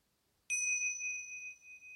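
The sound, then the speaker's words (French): A small meditation bell struck once rings out with a clear, bright, high tone that sustains and slowly fades after a sharp onset. It sounds alone in near silence. “Donc, pendant cette assise, occasionnellement, je ferai sonner ma petite cloche.”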